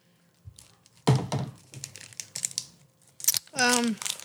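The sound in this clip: A snack wrapper crinkles as it is torn open, with one sharp crackling burst followed by shorter rustles between stretches of people talking.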